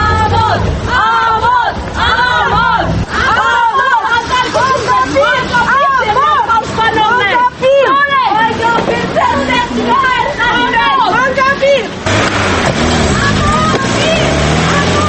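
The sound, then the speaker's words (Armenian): Protesters outside a courthouse shout "shame" as a car drives off. Many voices yell and chant at once in a loud, unbroken roar that lasts throughout, with a rumbling undertone beneath the crowd. “Նրանք պաստառները բարձրացրած հետևեցին ամբաստանալին, մինչև նրան մեքենայով հնարավորինս արագ հեռացրեցին ցուցարարների հնչեցրած ամոթանքների ներքո։”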